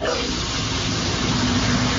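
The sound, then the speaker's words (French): A shower runs steadily, a dense, unbroken hiss of spraying water lasting the full two seconds, with no talk. “je suis sous la douche, donc je peux pas répondre”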